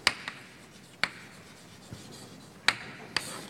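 Writing on a board during a mathematics lecture on neural networks: a few faint, sharp taps and scratchy strokes spaced irregularly, with no talking.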